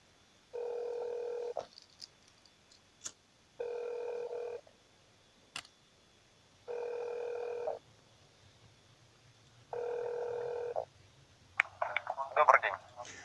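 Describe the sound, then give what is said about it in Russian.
A telephone call to the Altai state television and radio company produces a ringback tone that sounds four times, each a steady buzz of about one second separated by longer pauses. Faint clicks fall between the tones, and a brief voice-like chirping follows at the end. “Так, звоним в государственную телерадиокомпанию. Внимание, разговоры записываются.”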